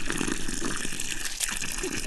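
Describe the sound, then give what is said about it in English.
Water gushes steadily into a planting hole dug with a spade, a continuous splashing pour that stays even in level throughout. “What I'm going to do is water the hole first.”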